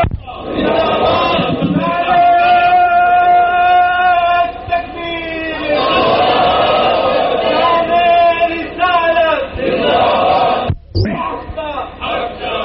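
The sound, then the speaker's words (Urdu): A crowd at a religious gathering chants a religious slogan in unison. Loud, sustained massed voices rise in long phrases with a short break between them. “نعرہ لگائیں ذرا شوق سے”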